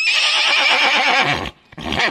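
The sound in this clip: A horse neighs in a loud, shrill whinny that quivers for about a second and a half, breaks off, then returns briefly in a short final burst.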